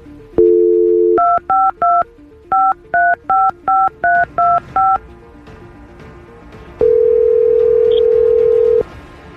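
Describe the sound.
A touch-tone telephone dials a long-distance call to Guadalajara: a short dial tone, then a quick, evenly spaced string of loud dialing beeps, then a long steady tone.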